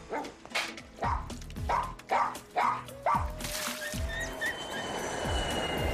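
A dog barking repeatedly in a steady rhythm. Loud, sharp barks fill the first half, then the sound gives way to a steady noisy background with a faint tone.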